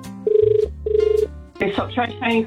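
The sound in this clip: A telephone rings as a radio host calls a contest winner live on air. Two bursts of warbling electronic ring tone are followed by a person speaking.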